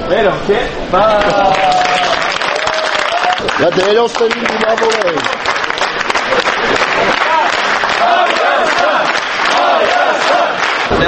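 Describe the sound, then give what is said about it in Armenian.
Fans applaud and chant at Zvartnots airport in Yerevan as they welcome the Armenian national team. Loud, dense clapping runs throughout, joined by many voices shouting and chanting in rising and falling cries. “Այսօր վաղ առավոտյան Երևանի Զվարթնոց օդանավակայանում երկրպագուները ծափահարություններով և վանկարկումներով դիմավորեցին Հայաստանի հավաքականին։”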